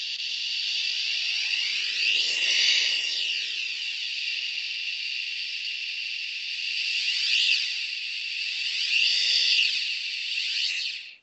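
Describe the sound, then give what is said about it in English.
A voice makes a steady breathy shh while a serving tray moves toward and away from the face, so the hiss swirls with a few hollow, phasing sweeps as the tray nears and withdraws. “I'm just going to make a sound. It's going to be a shh sound. And I think you're going to be able to hear an object moving toward me and away from me as I make that sound.”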